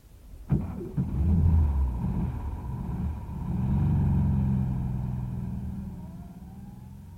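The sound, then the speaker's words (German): A car drives along with a steady, low engine rumble that swells slightly mid-way and then eases off, with no talking. “Und fahr dann nicht über die Champs-Élysées. Aber warum denn nicht? Wir sind doch immer so gefahren.”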